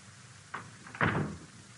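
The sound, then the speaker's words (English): Bedroom door closing: two soft, brief knocks, the second one louder and fuller, over a faint quiet background. “Close the door.”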